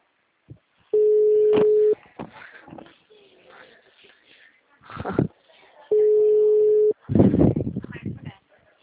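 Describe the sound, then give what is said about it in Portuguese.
The ringback tone of an outgoing phone call sounds as two steady mid-pitched beeps of about one second each, separated by a long pause. A person talks between and after them. “Bora, Bruno, me atende”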